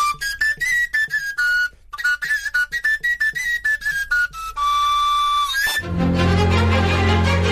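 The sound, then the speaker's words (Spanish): Whistling from a handmade ancient instrument cut from a hollow elder branch: a quick run of short, breathy, high notes, followed by longer held tones, played alone. “Alguno tan sencillo como una rama de saúco hueca que suena así.”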